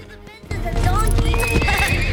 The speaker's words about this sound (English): The horse snorts, rears and canters across the grass towards them.